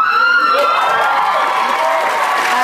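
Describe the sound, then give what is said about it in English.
A studio audience cheers and whoops in one steady, loud, unbroken wall of crowd noise lasting a few seconds. “Okay, by that reaction, they must have filled that audience with just Kim Kardashian super fans, right? Or they're just directing the audience.”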